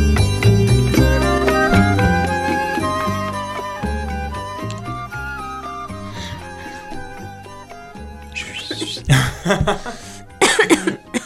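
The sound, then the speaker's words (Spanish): Coughing and throat clearing in a few harsh, irregular bursts that follow a stretch of music fading out, the rasping coughs coming close together near the end. “volvimos acá con un par de inconvenientes de carraspera”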